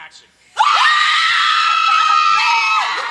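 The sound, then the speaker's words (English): Several people scream together in one loud, sustained, high-pitched shriek during a live show. It bursts in after a short hush and holds steady for about two and a half seconds. “Thank you for screaming.”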